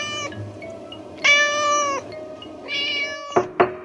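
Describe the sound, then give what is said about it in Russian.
A cat meowing plaintively: three drawn-out, high harmonic cries with quiet gaps between them, the first cut short. A few sharp knocks follow at the end. “Но кончилось тем, что, став невидимой, она стала просто жалобно мяукать.”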